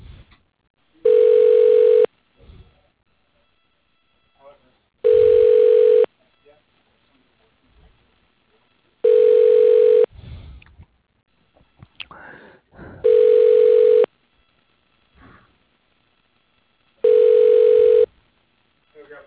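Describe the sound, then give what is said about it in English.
Ringback tone of a call being transferred to the operator at a steel company: five steady tone bursts, each about a second long and evenly spaced, with faint sounds in the gaps between them. “Please hold while I transfer you to the operator.”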